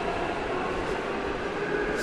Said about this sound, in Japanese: また列車来たね。これね、一部地下鉄なんですけど、車両が広い、でかい、だから揺れないし静かだし、